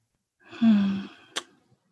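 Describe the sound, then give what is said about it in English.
A deep breath during a guided meditation: one long, soft, airy exhale that tapers off gradually, then a brief sharp click before quiet. “Taking a couple big breaths, not forcing it, just whatever way feels natural.”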